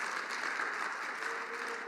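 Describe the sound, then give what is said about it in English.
Applause from a church audience, a steady, dense patter of many clapping hands holding an even loudness through the whole short stretch. “I didn't say that for the applause, but okay.”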